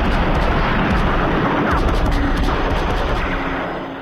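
A loud explosion in a war scene, a dense, sustained roaring rumble that fills the whole stretch and eases slightly in loudness at the end.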